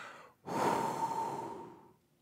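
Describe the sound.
A single long breath blown out, a voice imitating rushing wind: a soft, airy whoosh that starts suddenly, holds for about a second and a half, then fades away.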